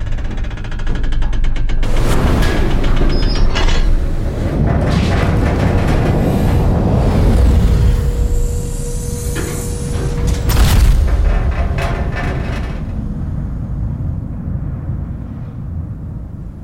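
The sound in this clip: A spaceship engine fires for takeoff in a loud, heavy roar that starts abruptly, holds with booming surges for many seconds, then thins and eases off toward the end.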